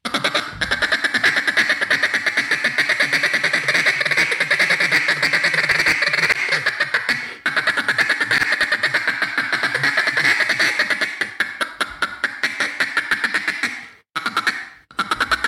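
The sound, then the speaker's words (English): A duck call blown as a feed call imitates ducks with loud, rapid, continuous quacking chatter, a dense rhythmic stream that runs almost unbroken before ending in a few short, clipped final notes. “It's ducky. Sounds like a duck. Oh, it's just like a lot of ducks. It's just the right amount of pressure on the fee call.”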